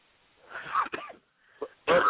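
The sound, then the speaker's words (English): A person coughs and clears their throat over a call line. The sound comes in a few rough, breathy bursts with short pauses between them, and there is no clear speech. “you coughing. Why are you clearing your throat?”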